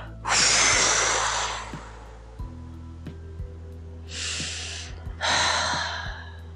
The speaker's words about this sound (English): And then we're going to take a deep breath, count to three, 1, 2, 3, hold, and then let it all go.